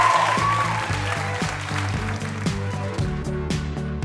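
Live audience applause for a celebrity guest on a quiz show: steady, dense clapping that holds at an even loudness for about four seconds, with no voices over it.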